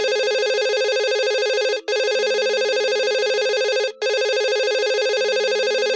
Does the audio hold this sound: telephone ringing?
yes

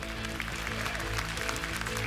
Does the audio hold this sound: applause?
yes

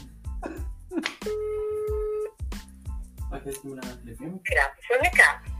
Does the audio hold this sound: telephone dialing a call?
yes

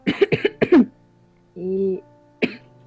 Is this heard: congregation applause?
no

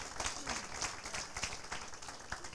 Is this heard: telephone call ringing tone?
no

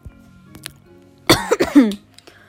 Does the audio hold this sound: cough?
yes

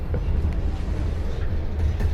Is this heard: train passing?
yes

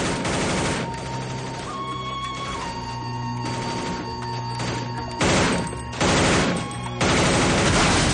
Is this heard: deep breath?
no

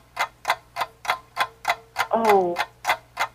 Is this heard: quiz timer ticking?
yes

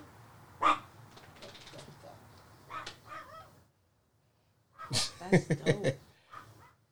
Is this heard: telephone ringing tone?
no

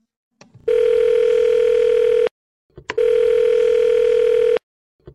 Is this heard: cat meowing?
no

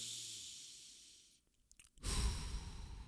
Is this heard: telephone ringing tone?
no

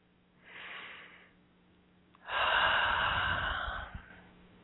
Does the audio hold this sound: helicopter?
no

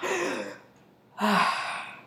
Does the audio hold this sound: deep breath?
yes

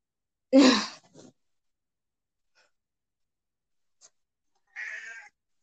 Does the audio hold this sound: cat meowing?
yes

